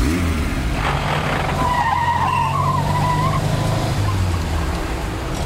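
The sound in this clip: A car speeds off with tyres squealing in a long, wavering screech over a low engine drone. The squeal lasts a couple of seconds before it fades, leaving the engine rumbling on.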